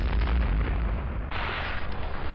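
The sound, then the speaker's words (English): A massive explosion, a floating city blowing apart, rolls as a loud, deep, sustained roar heavy in low rumble, then surges into a brighter second blast partway through before cutting off abruptly. “The floating city exploded, shaking the ground beneath them.”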